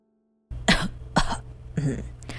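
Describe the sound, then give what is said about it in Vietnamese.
An elderly woman coughs a few short, rough times after a moment of silence, with brief gaps between each cough. “Mãi một lúc lâu sau, ngoại mới ho lên một tiếng.”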